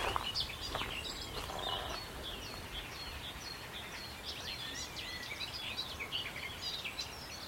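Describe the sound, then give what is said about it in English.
A garden warbler sings in a rapid, bubbling, chortling warble that runs on without a break. The song is faint and high over soft background hiss along a deep-rutted path lined with overgrown hedges. “Garden warbler here. Sort of chortling away.”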